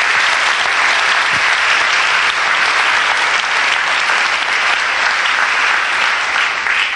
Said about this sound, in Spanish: Un aplauso al Señor